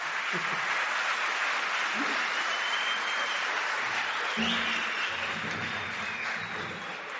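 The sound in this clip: Steady hand clapping, dense and continuous throughout, with a low hum joining partway through.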